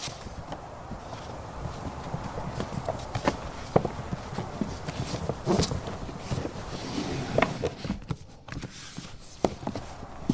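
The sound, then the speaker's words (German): Footsteps of someone climbing a flight of stairs inside a house, a series of muffled thuds and knocks at an uneven pace over a low, noisy background. “Warte, ich hab was gehört. Was denn? Verdammt, da kommt jemand die Treppe hinauf.”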